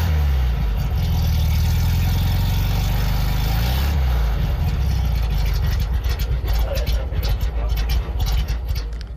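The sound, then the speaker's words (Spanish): A classic rear-mounted Volkswagen Beetle-family engine running, a steady low throbbing idle whose tone shifts near the midpoint, followed by a rougher, clattering texture toward the end. “yo tengo un Volkswagen Karmann Ghia, me suena mucho. Yo creo que es una motorización clásica del grupo de los escarabajos.”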